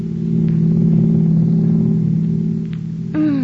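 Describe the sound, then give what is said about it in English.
A car drives home at night with a steady, loud engine drone; near the end the engine note shifts and climbs in pitch. “And then one night, you and Shelley are driving home from an after-theater party.”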